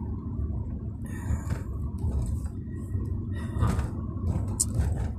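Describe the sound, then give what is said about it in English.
Low, steady road rumble of a car driving, heard from inside the car, faint and even, with a few soft knocks and rattles. “And yeah, in the car as well, so you're always going to hear me talking to myself about where the fuck I'm going.”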